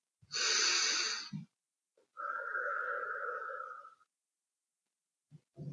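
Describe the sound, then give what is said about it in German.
A deep breath in, loud and airy, is followed by a slower, softer breath out with a hollow tone, then quiet and the faint start of another breath. “dann darfst du jetzt deine Augen schließen und atme mal ganz tief ein und wieder aus.”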